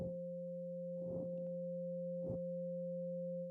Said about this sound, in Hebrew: אנחנו גם נקשיב לתדר 528, שזה תדר האהבה והניסים, תדר סולפג'ו עתיק, תדר של טרנספורמציה, הוא אגב נשמע ככה